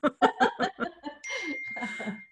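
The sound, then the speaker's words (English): Bell ringing after a burst of laughter: a sustained, steady ringing tone that holds on under voices and chuckling. “and the bell goes off every time we have a good one”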